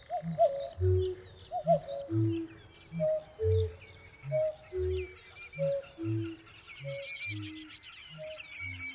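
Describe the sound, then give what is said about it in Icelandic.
Birdsong outdoors in nature: soft, low dove-like coos repeat in a steady rhythm while thin, higher chirps and warbles flit over them throughout. “Við skulum aftur ímynda okkur að við liggjum einhvers staðar úti í náttúrunni. Fuglasöngur, allt um kring.”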